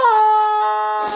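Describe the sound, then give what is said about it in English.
A squeezed rubber toy chicken wailing in a store: one loud, high, reedy squeal held at a steady pitch, then cut off at the end. “squeezing the hell out of these chickens and making them wail”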